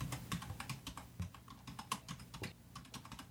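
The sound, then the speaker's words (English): Login credentials, starting with an email address, are typed on a computer keyboard. Rapid, steady keystroke clicks run continuously and quietly, with no talk. “Now it takes you into the fields where you once again type in your credentials. Email address first.”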